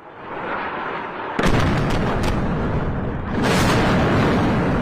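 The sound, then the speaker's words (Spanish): Bombs exploding and artillery fire during wartime. A low rumble breaks into a sudden heavy blast followed by several sharp cracks, and then a second loud, sustained roaring burst that continues to the end. “Todo esto mientras el sonido de las bombas continúa.”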